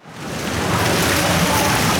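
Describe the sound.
Swimmers from a swim club splash through lane after lane during morning training in an outdoor pool in Aarau, a continuous, loud wash of churning water.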